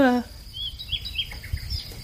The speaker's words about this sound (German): Oh, hey, warte mal, ich habe hier was vergessen. Die Vögelchen!